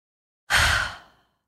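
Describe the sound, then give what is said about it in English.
A single deep breath, one loud sigh-like rush of exhaled air that starts abruptly and fades out over under a second, with silence around it. “Now a deep breath.”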